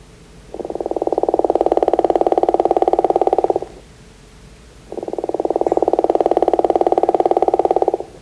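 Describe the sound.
Two long frog calls, each a drawn-out, rapidly pulsed snore that sounds like a growl. The loud, buzzy calls last about three seconds each, with a short pause between them.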